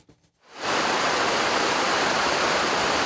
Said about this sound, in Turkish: Tabii durum böyle olunca da Sait Abat şelalesi tam anlamıyla coştu.